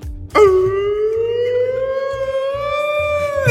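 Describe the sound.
A voice imitates an air raid siren, holding one long wailing tone whose pitch climbs slowly and steadily for about three seconds over a low, rhythmic pulsing background.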